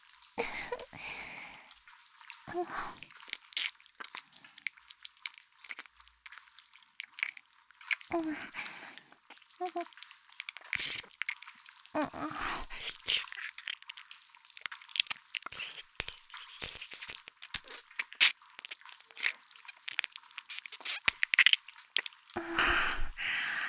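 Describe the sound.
Wet mouth sounds from licking an ear: many irregular sticky clicks, smacks and slurps that come in uneven bursts, some sharp and close, others softer, throughout.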